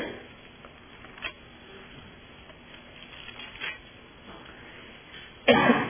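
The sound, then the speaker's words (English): Coughing from a person with an irritated throat during a Bible study talk: a few faint, brief throat sounds against low background noise, then one loud, rough cough burst at the end. “excuse me. I had a terrible time with my throat this morning in the young adult class there, and I'm hoping I'm not going to start another paroxysm of coughing like I had with them.”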